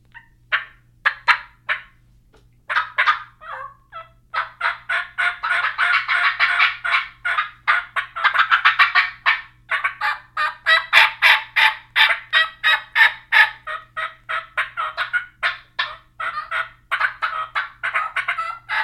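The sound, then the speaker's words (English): Turkey calls in assembled combinations: sharp putts, high kee-kee whistles, a rapid cackle cluster and falling pitch-down notes, making up many loud, clipped calls in quick bursts and runs with no voices. “So we're gonna close this out on a putt per kiki cackle cluster and a putt per pitch down combination. All assemblies of different calls.”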